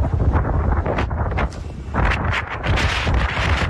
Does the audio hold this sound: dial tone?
no